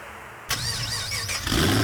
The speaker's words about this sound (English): Rev your engines.